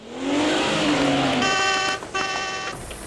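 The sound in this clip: A car engine, the newest Skada 38 with tow-hook heating out on a test drive, rises in pitch, then settles into a loud, steady drone with bright tonal overtones.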